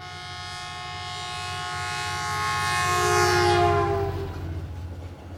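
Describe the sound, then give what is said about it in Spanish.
A train slowly pulls out of a station platform, sounding a loud, sustained horn over a low rumbling of the cars. The sound swells toward the middle, then fades and thins out. “mi rima es tren, tren, tren, sale despacito del andén.”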